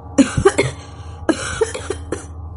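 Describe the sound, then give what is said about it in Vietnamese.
Dry coughing from a young man after having his throat released: two clusters of short, harsh coughs separated by a brief pause, with no talking. “Cậu hít sâu vài hơi, xoa cổ, ho khan không ngừng.”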